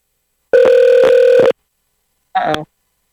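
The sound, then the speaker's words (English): A telephone line tone after a caller disconnects: one steady, loud buzzing tone lasting about a second, then after a pause a shorter, higher burst. “Hello? Looks like our caller disconnected.”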